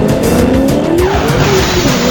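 Tires squeal as a Camaro burns rubber, a loud continuous screech with a wavering pitched whine riding over a dense, roaring engine throughout.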